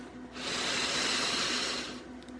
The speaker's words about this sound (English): Take a deep breath with me here.